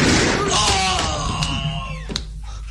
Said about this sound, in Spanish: Alguien disparó contra el nativo, matándolo.